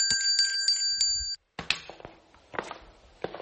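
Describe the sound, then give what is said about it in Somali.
A bell found during a game rings with several quick, bright strikes in a steady rhythm, each leaving a sustained metallic tone. It then falls silent, followed by scattered thumps and clatter. “gambaleel baan helay kaalay halkaan arag”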